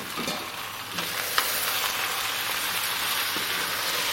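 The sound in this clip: Steady, faint sizzling of brined preserved lemons browning in a cocotte. An even crackle of frying runs throughout, with one brief knock early on.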